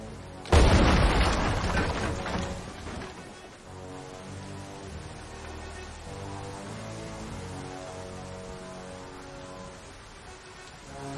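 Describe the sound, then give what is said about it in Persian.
A loud explosion, set off on command, erupts in a single booming burst near the start, then fades into a long rumbling tail that carries on at lower level. “آماده؟ منفجرش کن.”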